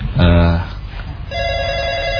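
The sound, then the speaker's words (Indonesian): A telephone ringing with an incoming call: a voice speaks briefly, then a steady, moderately loud ringing tone starts and continues to the end. “ada telepon kembali.”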